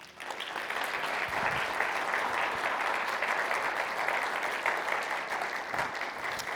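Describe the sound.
An audience at a church gathering welcomes a speaker with sustained applause, a dense, even wash of clapping that holds steady throughout.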